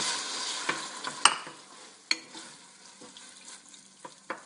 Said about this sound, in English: So the pot is nice and hot. I'm going to turn it down to a medium heat. Stir that around. I'm going to throw in our 2 medium diced tomatoes.